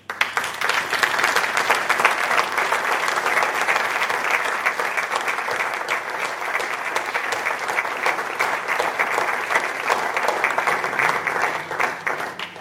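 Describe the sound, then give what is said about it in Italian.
Audience applause for a guest at a public talk: dense, steady clapping that holds at an even, loud level for about twelve seconds without a break. “io gli farei un applauso”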